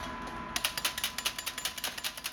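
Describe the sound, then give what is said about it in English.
Rapid metallic tapping of a metal spatula striking candy sticks to cut them into lengths, a long, even run of crisp, bright taps that starts after a short pause and keeps a steady, quick rhythm over a low constant hum. “They each take 3 or 4 sticks in one hand and the spatula in the other and tap, tap, tap like you hear in the background.”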